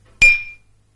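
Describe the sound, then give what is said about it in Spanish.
Drinking glasses clink as they are set down on a tray beside one another, giving a single sharp, bright glassy strike with a short ringing tail that fades within half a second, surrounded by quiet. “pone a escurrir el vaso junto a otro sobre una bandeja. Cambia de lugar los otros vasos.”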